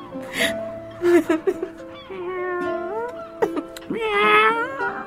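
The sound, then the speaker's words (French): A cat in Algeria, cold and shivering, meows a few times in drawn-out, wavering cries, some rising and falling in pitch, loud and clear with no talk. “Arrête de miauler, toi. T'es pénible à la fin.”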